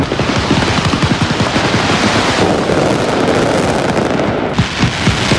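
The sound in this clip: Loud mascletà firecracker barrage in Valencia on October 9, the Valencian regional day. Dense, rapid-fire bangs crackle relentlessly with no pause, forming a continuous pounding roar of explosions.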